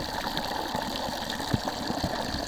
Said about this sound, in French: Après là c'est aussi plus fort, le jet d'eau est plus fort quand même.